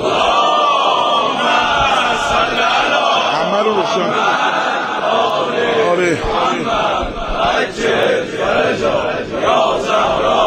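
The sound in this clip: A crowd at a religious gathering marking the birth of Hazrat Masoumeh in Anzali loudly chants salawat in unison, a dense, steady mass of voices that fills the whole stretch.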